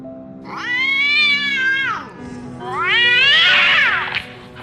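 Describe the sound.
A black cat screeches twice: two long, loud harmonic yowls, each swelling and then tailing off, with a short gap between them. The second cry is higher and harsher than the first.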